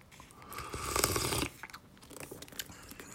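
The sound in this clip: Slurping of noodle soup broth sprinkled with ichimi chili pepper, one long loud slurp lasting about a second, followed by a scatter of small, quieter mouth and chewing sounds.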